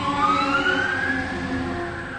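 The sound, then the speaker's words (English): A fire engine siren wails in a loud, steady tone whose pitch climbs slowly over a couple of seconds, heard alone without talking. “Fire engine. So there might be more.”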